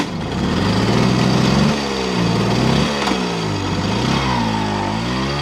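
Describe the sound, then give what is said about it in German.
A moped engine drones as it rides in circles on a market square, a loud buzzing two-stroke note whose pitch rises, dips and swoops again as the rider throttles up and eases off, heard alone. “Vincent Hagen fährt mit seinem Moped auf dem Marktplatz im Kreis.”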